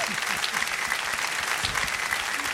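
Audience applause welcomes a singer onto the stage at a live show. Dense, steady clapping runs evenly from start to finish at a moderate level.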